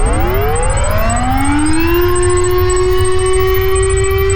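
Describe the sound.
A civil defence disaster warning siren starts low and climbs quickly in pitch, then holds a loud, steady high wail. Faint, high, clipped beeping tones repeat in short bursts above it.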